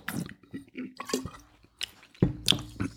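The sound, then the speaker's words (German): Wine from Lake Balaton sipped during a tasting: short, wet slurping and squishing mouth sounds in a few quick bursts, with the liquid drawn in and swirled. “Geschmackswein. Dann trinke ich jetzt mal.”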